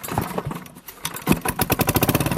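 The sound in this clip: A diesel-fuelled motor pump used to drain floodwater is started: uneven sputtering turns over, then catches into a steady, rhythmic chugging of regular engine pulses.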